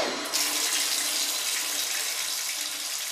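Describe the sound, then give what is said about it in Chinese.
Shower water runs while shower gel is rinsed off the body, a constant loud hissing spray that never breaks or changes. “好了，涂的也差不多了，现在就把沐浴露冲洗干净吧。”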